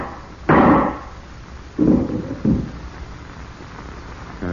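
Three loud, booming gunshots in a radio drama, the first standing alone and the next two close together, each decaying quickly into a low hiss.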